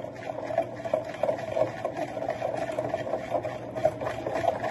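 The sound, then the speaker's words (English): Quick, steady whisking of a liquid while more is slowly dribbled in, a rapid rhythmic sloshing and scraping that runs on alone without talk. “Slowly dribble, quickly whisk.”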